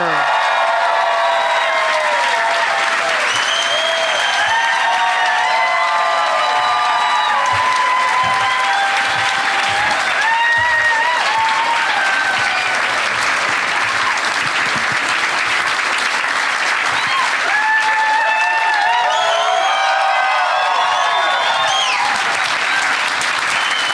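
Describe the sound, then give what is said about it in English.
Audience at a comedy show cheering and applauding as three stand-up comedians come on stage, a loud, dense roar of clapping sustained throughout, with whistles and shouts rising above it. “That extra wave of excitement from the audience is because Bert hasn't taken his shirt off yet.”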